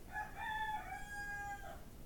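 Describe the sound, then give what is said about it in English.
A rooster crows once, a single drawn-out cock-a-doodle-doo lasting over a second, faint and alone against a low background hiss. “That's a rooster.”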